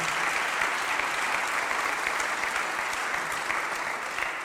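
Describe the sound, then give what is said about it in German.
Welcoming applause from an audience greeting political representatives at a public event: dense, steady clapping that stays at an even, fairly loud level throughout without a break. “alle ganz herzlich begrüßen und auch meinen Begrüßungsapplaus für alle politischen Repräsentantinnen und Repräsentanten heute hier bitten. Herzlich willkommen.”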